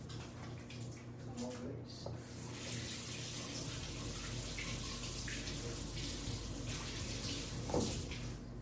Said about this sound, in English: Let me wash my hands.